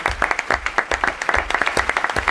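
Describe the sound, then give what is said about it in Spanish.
Applause from an audience for a cast member after a staged performance of an Edgar Allan Poe tale. Many sharp, distinct claps come in a quick, fairly even patter, each one crisp and clearly separate. “Bueno, un aplauso para David.”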